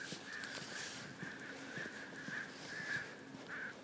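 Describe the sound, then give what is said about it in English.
Crows cawing in a series of harsh, evenly spaced calls, several in a row, over a steady background hiss with faint low knocks. “Crows.”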